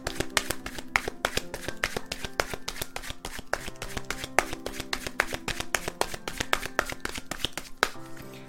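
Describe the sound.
Tarot oracle cards are shuffled by hand, producing a rapid, steady stream of many crisp slapping clicks that continue evenly for about eight seconds.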